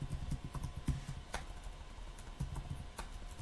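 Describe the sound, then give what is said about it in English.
Typing on a computer keyboard, many irregular key clicks tapping in uneven bursts, fairly faint against a low background hum. “Can't type this morning. Still can't type this morning.”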